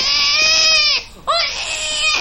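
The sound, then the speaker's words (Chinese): A baby cries from hunger in loud, sustained wails with a bright, strained tone. There are two long cries separated by a short catch of breath, and the second cry rises sharply in pitch at its start. “孩子饿了。啊！不哭！”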